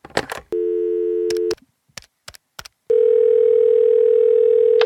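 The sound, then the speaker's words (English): A rotary telephone's dial tone, a loud, steady low hum, plays alone, stops for a string of short clicks, then returns and holds unbroken to the end. “Get me my rotary telephone. Indeed, sir. Here it is, sir.”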